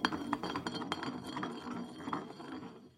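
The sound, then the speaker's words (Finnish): A glass bottle spins on a surface during a game of spin the bottle. Its rattling, clinking whir is made of small, irregular taps that gradually fade out. “Eli pistetään pullo pyörimään. Pyörii.”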